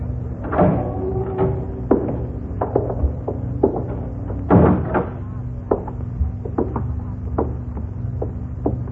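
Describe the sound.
A prison cell door being opened makes many sharp metallic clunks and rattles, with a couple of heavier thuds among them.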